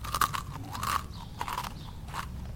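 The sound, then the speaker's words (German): Crunchy muesli being chewed from a bowl, several crisp crunching bursts in an uneven rhythm, fairly quiet with no talk. “Wer isst denn am Abend Müsli?”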